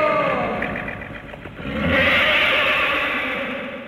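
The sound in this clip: A horse neighs in a loud whinny with a wavering tone, which gives way to a broader, breathy roar that swells and then slowly fades.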